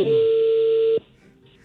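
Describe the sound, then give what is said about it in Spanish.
Telephone tone as a call is dialed: a steady electronic tone holds for about a second, then drops to a faint hum before another tone begins at the very end. “Ya está marcando.”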